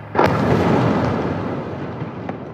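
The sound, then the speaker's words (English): An Israeli airstrike explodes at night in Gaza City: one sudden, loud blast swells into a broad rumbling roar that slowly fades, with a faint sharp crack near the end. “NPR's Anas Baba in Gaza City recorded that sound of an Israeli airstrike last night”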